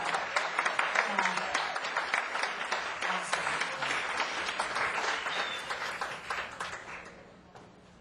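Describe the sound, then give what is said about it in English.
Audience clapping, a thick, steady patter of many hands that stays strong for most of the stretch before thinning and fading toward the end. “I'm gonna have you clap for that.”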